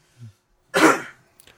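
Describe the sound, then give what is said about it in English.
A single harsh cough, close to throat clearing, bursts out after a brief soft vocal sound, then dies away into quiet with a few faint clicks. “You can stop coughing in the background.”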